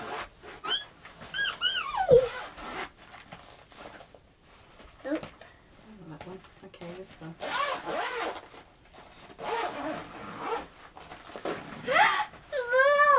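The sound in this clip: A zipper rasps as a fishy-themed toy bag with pockets for magnets is opened. Several scratchy pulls come in bursts amid adult and child voices.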